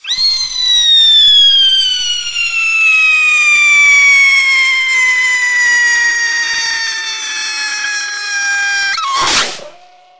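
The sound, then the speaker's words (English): A two-stage gold top rocket firework launches at an Independence Day celebration with a loud, shrill whistle whose pitch slowly falls for about nine seconds, then ends in one sharp burst. “This is called two-stage gold top rocket. This is called two-stage gold top rocket. Here we go. Here we go. Two-stage gold top rocket.”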